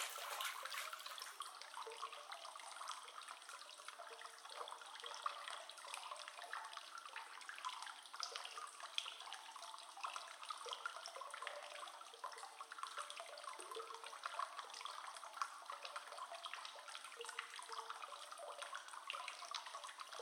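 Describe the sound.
Bath water splashing and running as someone soaks: a continuous bright hiss with fine trickling texture that stays steady throughout, with no voices.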